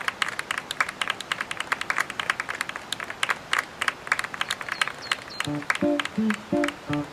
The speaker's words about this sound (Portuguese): Nem precisava aplaudir no final.